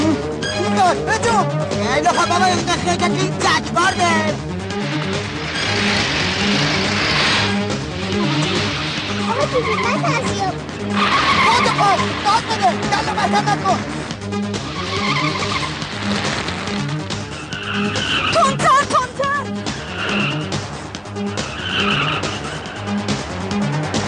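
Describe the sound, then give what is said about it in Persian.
A car drives fast with its tires skidding, making loud repeated squealing screeches over a continuous, dense engine roar. “صمیمی با سرعت رانندگی میکنه. ماشین دزدا میاد بغلش.”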